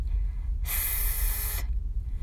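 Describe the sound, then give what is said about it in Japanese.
A voiceless English 'th' is demonstrated with breath forced out between tongue and teeth, as in 'everything', giving one steady, fairly loud hiss of about a second on its own. “発音で気をつけるところは everything のしです。舌先を軽く噛んで息を強く吐いてください。このように、”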